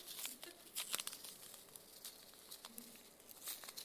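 Faint crinkling and tearing as a package is unwrapped, with irregular soft rustles and small crackles throughout.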